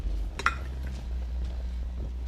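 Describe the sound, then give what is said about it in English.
A glass cover is lifted off a burning oil lamp, giving a single light, bright clink near the start over a steady low hum, with nothing else following. “He calmly takes a seat at the table and takes the glass covering off a burning oil lamp.”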